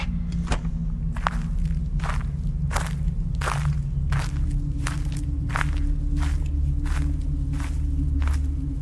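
Footsteps walk at an even, moderate pace through a horror video game with animatronics. There are many soft, dull thuds over a constant low rumbling drone.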